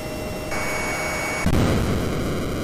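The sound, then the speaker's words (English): NES Top Gun video game sound of a jet attempting to land on an aircraft carrier: a steady hissing roar with thin high electronic tones, then a heavier rumbling burst partway through. “For those listening and not watching, that was the NES Top Gun game and my attempt to land on the aircraft carrier every single time.”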